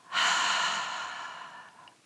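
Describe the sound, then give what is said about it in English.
Breathing during a guided meditation's tense-and-release exercise: one soft, airy breath that swells quickly and then fades slowly over about two seconds, heard alone. “Double inhale, tense, and double exhale.”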